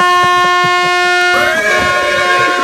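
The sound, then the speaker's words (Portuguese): A loud air horn sound effect blares as one continuous, harmonically rich blast of under three seconds. Its tone turns rougher and noisier about halfway through. “Ai, vou tomar uma buzina, já era.”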